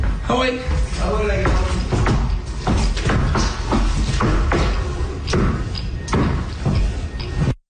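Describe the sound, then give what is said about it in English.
A moose stomps on the floor inside a house in Trois-Rivières after breaking in, making many loud, irregular thumps and bangs in a rough, noisy burst, with voices heard at times. “that is the sound of a moose stomping on the floor after it broke into a man's house”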